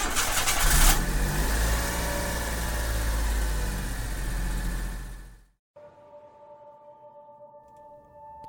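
A car engine roars and revs loudly and steadily for about five seconds, then cuts off abruptly, leaving a much quieter, sustained tonal sound.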